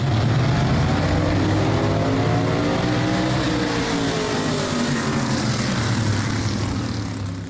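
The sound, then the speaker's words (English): Race cars roar around a speedway in Alamance County, a dense, steady engine drone with layered harmonic whines that sweep slightly in pitch as cars pass, loud and continuous throughout before easing off at the very end. “That sound from the Ace Speedway in Alamance County near Elon, where last weekend and this weekend, a few thousand fans watched races”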